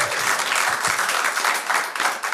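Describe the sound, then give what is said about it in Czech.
Enthusiastic audience applause rises from a live talk-show crowd. The clapping is dense and steady at a fairly loud level, with slight surges and dips in intensity. “Možná jim taky chutnal potlesk, zatleskáme jim tam nahoru.”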